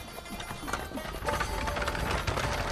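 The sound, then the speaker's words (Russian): Hooves of a horse-drawn chariot clatter along a road in a fast, dense clip-clop with a rolling rumble. The sound grows louder partway through as the chariot approaches. “О, навстречу путнику едет повозка. Колесница.”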